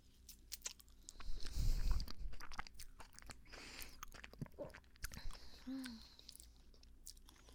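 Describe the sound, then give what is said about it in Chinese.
Food is bitten and chewed as someone is fed. Many faint, irregular crunches and soft wet clicks are heard, heaviest early on and then lighter and scattered. “张嘴啊！太好吃了吧！”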